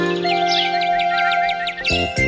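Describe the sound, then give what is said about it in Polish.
Sparrows chirp in early morning: a quick, bright, repeating run of high tweets over a sustained musical tone, fairly loud and with no voices. “Ćwierkają wróbelki od samego rana.”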